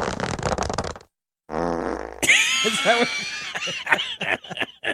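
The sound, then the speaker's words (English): A buzzy, raspy fart noise follows a short burst of noise and a brief silence, then people laugh and talk over the tail. “So a fart noise sounds when you sit on your dick?”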